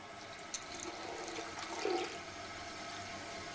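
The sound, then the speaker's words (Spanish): Water runs from a tap in a school washroom, making a steady, faint rushing hiss that continues unbroken from start to finish, with a slightly louder swell near the middle. “Abre uno de los grifos y mete la cara bajo él.”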